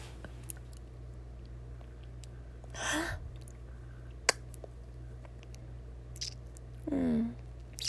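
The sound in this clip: Faint, wet chewing and mouth sounds come while someone tastes food, with two louder, longer bursts standing out against quiet background noise.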